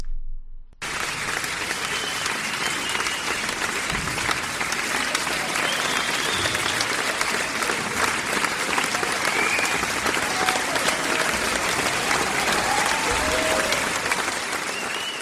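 An audience gives a high school show a standing ovation in Digne-les-Bains, with loud, dense, sustained applause that runs unbroken for the whole stretch.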